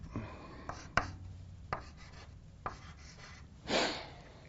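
Pen strokes drawing a graph in a coordinate system: a few faint, short taps followed by one longer scratching stroke near the end, with no voices.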